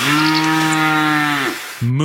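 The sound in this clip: A cow moos in a long, loud, steady low call lasting about a second and a half. After a brief pause, a second moo begins.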